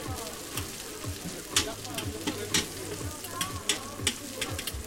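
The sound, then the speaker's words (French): Aubergine slices sizzle in a little oil in large metal pans while metal tongs turn them, sending many sharp clicks and taps in a rough rhythm over the steady, crackling fry. “avec une pince métallique, il retourne les aubergines qui sont en train de cuire dans un peu d'huile dans des grands plats, dans des grandes poêles métalliques.”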